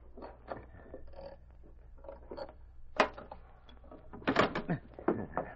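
A safe being opened during an armed holdup: soft scrapes and knocks at first, then a sharp metallic clank partway through and a louder cluster of clunks and scraping toward the end, without talk over it.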